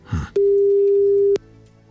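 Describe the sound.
Outgoing telephone call line tone: a single steady mid-pitched tone lasting about one second, loud and alone, preceded by a brief faint voice fragment and followed by quiet line hiss.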